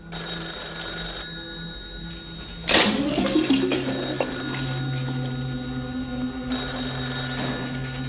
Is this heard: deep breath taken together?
no

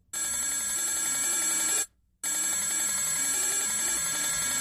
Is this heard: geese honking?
no

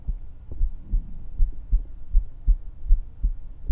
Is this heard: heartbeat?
yes

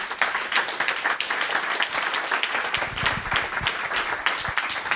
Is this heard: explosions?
no

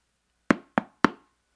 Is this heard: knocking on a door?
yes

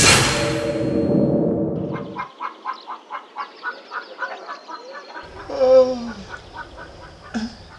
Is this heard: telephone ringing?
no

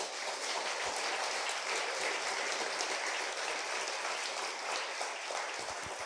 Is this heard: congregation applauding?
yes

